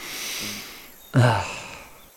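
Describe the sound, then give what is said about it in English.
A person takes one sharp sniff, inhaling through the nose as if catching a pleasant smell. The brief breathy rush starts abruptly midway and fades quickly, with quiet before and after. “Humans often inhale through their nose when they smell something nice. It's an automatic response.”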